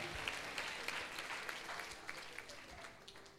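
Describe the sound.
An audience applauds during a French-language church service: dense, steady clapping that stays fairly faint and even throughout.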